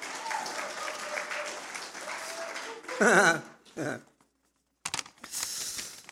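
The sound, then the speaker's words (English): Audience applause for a speaker invited up to share her passion, rising after a stretch of talking in short loud bursts of clapping, breaking off into silence before resuming. “So you can give her a hand if you like, please.”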